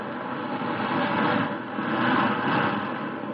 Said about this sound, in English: There, I've got it. Starting numbers 3 and 4 jets.